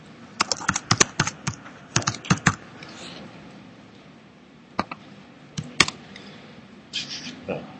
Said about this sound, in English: I'm going to type it for you.